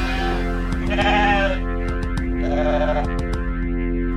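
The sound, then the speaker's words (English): Sheep bleating in a couple of long, wavering, nasal bleats, the first louder and longer, with faint scattered clicks in between and no talking. “that sheep. It keeps bleating, love. It keeps bleating, it keeps bleating, love.”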